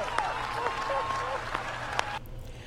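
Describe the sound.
Audience cheering and applause after a remark by a member of Congress at a political event. A dense, steady wash of clapping and crowd noise carries a few sharper claps, then drops off abruptly near the end.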